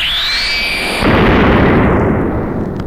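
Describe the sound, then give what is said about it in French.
A molecular disintegrator weapon fires and a stone disintegrates. A high electronic whine with a fainter lower tone gives way, at about one second, to a loud rumbling blast that slowly fades. “Le capitaine venait d'utiliser son arme la plus terrible, le désintégrateur moléculaire. La pierre n'existait plus.”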